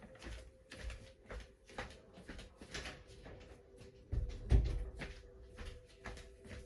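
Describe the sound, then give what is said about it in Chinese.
The wind blows a room door open with a single dull thud about two-thirds of the way through, over a faint, busy background. “我的房门被风吹，然后打开来了。”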